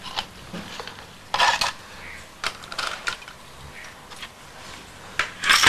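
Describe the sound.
Bowls clinking as they are washed: a few sharp ceramic knocks and clatters, spaced irregularly with quieter gaps between them, against a low background hiss.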